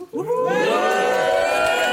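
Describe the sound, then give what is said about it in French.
A live radio studio audience cheering and whooping: a loud swell of many high voices bursts in after a brief quiet start and stays strong for about two seconds. “Il m'encadre comme ça. Il permet de rendre cette émission très vivante. On aimerait les entendre.”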